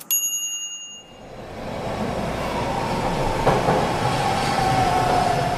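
A metro train at a station: a short bright ring, then a building rumble of rolling wheels with a thin high whine over it, steady and moderately loud.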